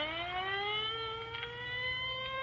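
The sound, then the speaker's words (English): Ambulance siren passing, a fairly faint electronic wail rich in harmonics holding a steady, slowly rising tone over a low rumbling drone. “Well, there goes the ambulance.”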